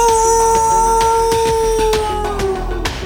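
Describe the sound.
A man's voice imitates a wolf howl, holding a long, steady tone that slides downward near the end, with regular percussive thumps beating underneath.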